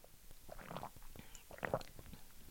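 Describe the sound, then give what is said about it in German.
Someone takes a couple of sips of a drink, with soft gulping and swallowing sounds, faint and wet, in short irregular bursts with a quiet pause between them. “ich trinke noch zwei Schlücke.”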